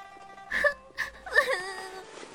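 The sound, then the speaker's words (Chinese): A voice imitates a boy bursting into tears in a martial-arts tale, with a few wailing, tremulous sobs in short bursts, the last one drawn out and trailing off. “严平似是见到久别重逢的亲人，哇的一声哭了起来。”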